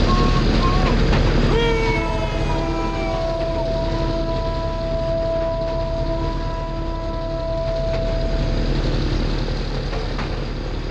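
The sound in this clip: A ceremonial special train driven too fast for the track gives a heavy, steady rolling rumble, with long sustained high tones held through the middle before fading back into the continuous roar.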